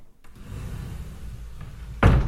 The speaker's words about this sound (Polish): Otwieram szafę.